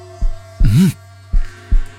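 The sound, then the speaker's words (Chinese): A pounding heartbeat from someone kneeling in ruins, clutching their chest and gasping: four heavy, low thuds at an uneven pace. A warbling tonal swirl rides over the second, longer beat. “剧烈的心跳伴随着某颗红色光点的融入逐渐趋于平缓。”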